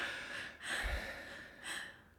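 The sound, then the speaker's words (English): A person breathes in and out in two soft, airy breaths separated by a short pause, with no talking. “It's good to breath. It's very important. Make sure you're always breathing. Let's breath together.”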